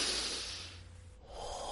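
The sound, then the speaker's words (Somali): A deep breath taken as part of a calming exercise: a long, soft, airy rush of breath that thins briefly near the end and then picks up again, heard alone without speech. “Ma doonaysaa inaad isku daydo inaad neef dheer qaadataan? Haye bilaaba.”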